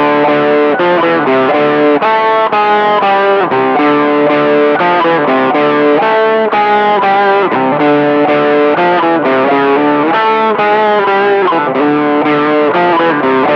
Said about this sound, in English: I don't know the history of this this pedal or this octaver sound, but it gives, what it does is that it brings two notes that are an octave apart